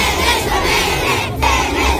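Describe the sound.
A crowd of Slovenian supporters cheers and shouts with flags and banners, children among them, forming a loud, continuous roar of massed voices that holds steady throughout.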